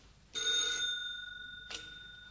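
A telephone rings with a shrill, steady electronic tone that starts sharply, holds, then fades, followed by a second short burst of ringing. No voices are heard.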